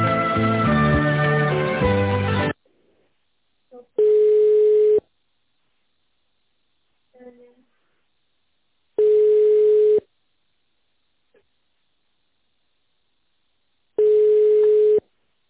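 Telephone ringback tone while a call is being transferred: three steady, one-second beeps about five seconds apart, separated by near silence and preceded by a short burst of other audio.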